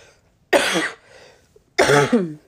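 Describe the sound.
Two rough, loud throat-clearing coughs, separated by a short pause, each a harsh burst from the chest and throat.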